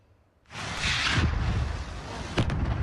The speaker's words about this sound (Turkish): Yangın tüm tesisi sardı, tüpler arka arkaya patladı.